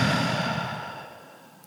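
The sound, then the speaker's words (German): A single long breath pushed out during a guided breathing exercise, a soft, airy rush that starts fairly loud and fades steadily away, with no talking over it. “wir atmen gemeinsam durch die Nase ein und durch den Mund aus.”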